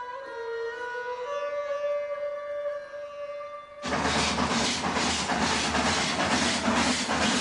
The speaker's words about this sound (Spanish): tren se aproxima a una población rural.